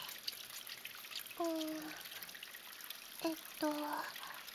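Something is scrubbed while being washed under running water. A steady trickle runs throughout, and a few short, squeaky rubbing tones cut through it.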